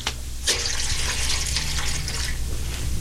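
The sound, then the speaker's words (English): Water splashes and pours as feet are washed, starting with a sudden splash and continuing as a steady, fairly loud rushing. “Judas, I would wash thy feet first. Wash my feet, Master? Yes, Judas. He is washing my feet like a common servant.”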